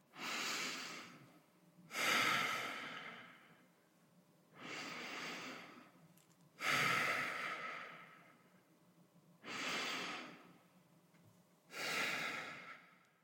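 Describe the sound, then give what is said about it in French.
Three slow, deep breaths at the start of a guided relaxation session, each a soft, airy inhale followed by a longer exhale, six even breath sounds in all, faint and alone. “Nous allons commencer par trois grandes et profondes respirations”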